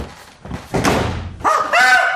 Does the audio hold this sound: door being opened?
yes